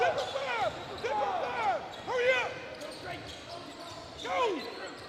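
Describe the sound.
Basketball dribbling on the court during a high school boys' game between Blackman and Siegel, with repeated bounces under a busy din of sharp high chirps and crowd noise.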